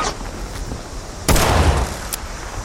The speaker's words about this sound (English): This pistol's working out pretty good. Except at that distance, where it didn't do much damage.